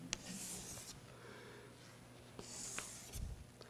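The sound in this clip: Faint, scratchy strokes of drawing on paper: a few soft scraping passes with brief gaps, quiet throughout.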